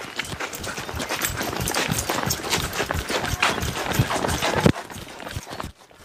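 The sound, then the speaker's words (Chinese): Running footsteps of a small group of elderly villagers setting off on a jog together, many rapid, irregular thuds throughout, then dropping to near quiet at the very end. “走走走，跑步去好嘛。嗯。走，跑步去。”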